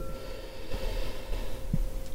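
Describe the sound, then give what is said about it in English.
A slow, deep breath drawn in through the nose during a guided relaxation exercise, soft and airy, with a snort-like rush of air over a steady, quiet background hum. “In through the nose and out through the mouth. And last elongated breath in”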